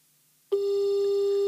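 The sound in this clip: Telephone busy signal on a phone call: half a second of silence, then one steady mid-pitched tone that starts abruptly and holds at an even, fairly loud level to the end.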